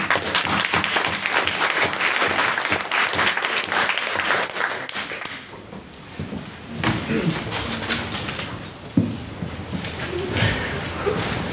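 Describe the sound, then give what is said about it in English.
Audience applause for a speaker at a debate on whether Islam is compatible with Western liberalism: dense, steady clapping that gradually thins out, after which a single voice begins speaking. “So, can we have another hand for Mr. O'Neill?”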